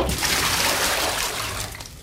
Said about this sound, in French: L'eau se répandit dans la case et de belles éclaboussures recouvrirent les braises.